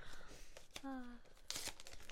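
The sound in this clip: Wrapping paper torn off a Christmas gift gives a short, sharp rip after some faint crinkling, heard quietly beneath people talking.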